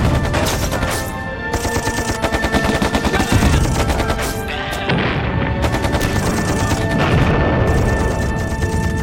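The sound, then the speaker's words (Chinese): Machine gun fire during an air raid, dense continuous rattling bursts, loud and unbroken for most of the stretch with only brief dips, mixed with heavy booming impacts. “空袭，射击！”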